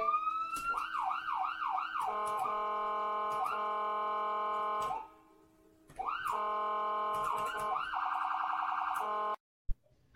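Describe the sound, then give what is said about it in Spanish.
Ambulance siren blaring loudly in rising-and-falling wails and sustained high tones, then breaking off briefly before it returns with more sweeps and a fast warble, ending in an abrupt cutoff. “Le voy a mandar el clip de la ambulancia para que lo usen en los podcasts.”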